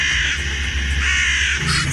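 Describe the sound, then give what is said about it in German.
Black crows caw, their harsh calls repeating over a dense, continuous noisy background at a steady, fairly loud level. “Schwarze Krähen kreisen über Kreuzberg.”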